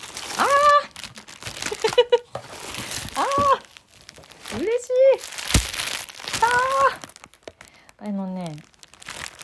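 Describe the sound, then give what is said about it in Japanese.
Crinkling plastic packaging rustles as newly bought concert-tour merchandise, a T-shirt and a cap, is unwrapped. Irregular crackly bursts come and go, with short voiced sounds in between. “グッズを買ったんで今から開封するよ”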